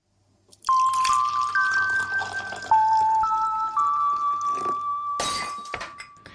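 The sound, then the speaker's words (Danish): A radio segment jingle: a short run of synth tones stepping between pitches over a low drone, ending in a bright, noisy crash-like burst. “så jeg kan trykke på jinglen”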